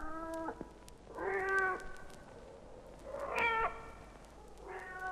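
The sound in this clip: A cat meows four times in drawn-out, rising-and-falling calls, each separated by a short pause, among animals filing aboard side by side.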